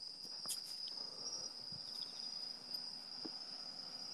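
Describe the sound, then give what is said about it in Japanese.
Crickets chirping in the countryside among mountains and rice fields: a faint, continuous high-pitched trill holds steady the whole time, with a few soft scattered clicks beneath it. “虫の声聞こえる？田舎の音とか言うなよ。”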